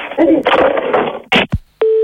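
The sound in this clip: A telephone handset is hung up with a couple of hard clunks after a muffled voice, followed by a steady electronic phone tone that begins abruptly at the very end.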